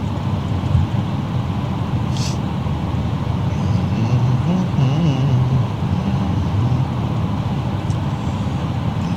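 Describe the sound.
A taxi cab drives along a road toward Omaha. Its engine and tire noise make a loud, steady rumble that stays level throughout, with a low wavering hum in the middle.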